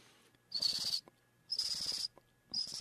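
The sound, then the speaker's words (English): A voice imitates a junco's song in three bursts of steady, high-pitched trill, each about half a second long and separated by short pauses, with no talking. “The higher pitch one would sound a lot like a junco.”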